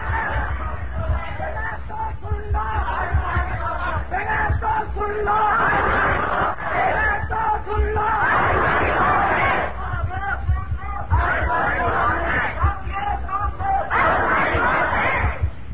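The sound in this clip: A large crowd at a religious sermon shouts a loud answer in unison, with the massed voices swelling in repeated bursts over a constant roar of chatter.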